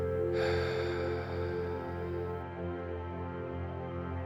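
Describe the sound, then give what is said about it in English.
A big audible exhale during a guided breathing practice, released after a held full breath: a long, breathy rush of air that swells at once and then trails off over about two seconds, with no talk over it. “And a big audible exhale out.”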